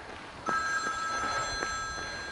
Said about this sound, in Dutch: Nou, de telefoon gaat. Maar die kan ik natuurlijk niet opnemen.